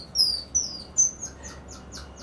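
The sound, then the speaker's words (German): Small golden-maned monkeys chirping in a series of high, thin, whistle-like chirps that sweep downward. The first few are louder and spaced apart, and the later ones come quicker and fainter. No talk is heard. “Ich finde das so klasse, dass die Mähne von denen und dass sie so süß und klein irgendwie sind und so goldig sind und die zwitschern immer so.”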